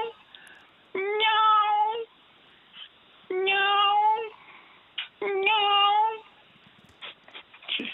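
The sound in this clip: A person's voice imitates a cat meowing, giving three drawn-out, nasal meows with even pauses between them, fairly quiet and with nothing else behind them.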